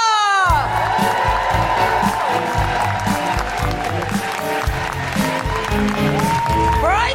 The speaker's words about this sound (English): Put your hands together and make incredible guilty feminists welcoming woohooing noises for the incredible Sakisa!